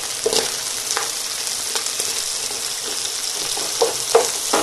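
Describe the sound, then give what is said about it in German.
Onions fry in a pan with a steady, bright sizzle throughout, broken by a few soft clicks of stirring. No voices are heard. “auf der anderen Seite braten ja meine Zwiebeln”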